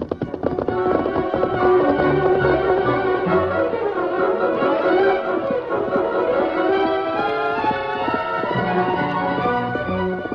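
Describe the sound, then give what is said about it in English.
Hoofbeats of Silver, the Lone Ranger's snow-white horse, carrying two riders through the center of town, a loud, rapid, steady clip-clop that runs unbroken for about ten seconds. “The Lone Ranger rode through the center of town, straight past the sheriff's office. Hold Silver! The sheriff and his deputy, Muldoon, saw the flash of the snow-white horse and the double burden.”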